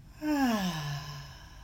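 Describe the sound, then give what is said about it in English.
A deep, slow exhale with a voiced sigh during a guided breathing exercise, starting firmly and trailing off with a falling pitch over more than a second. “Breathe in and out.”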